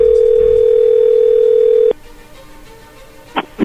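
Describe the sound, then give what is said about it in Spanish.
A telephone dial tone heard while placing a call: a loud, steady, unbroken tone that cuts off abruptly before the halfway point, followed by quieter line noise and a couple of short bursts at the end. “vamos a llamarle entonces a Janet en este momento y vamos a ver qué pasa”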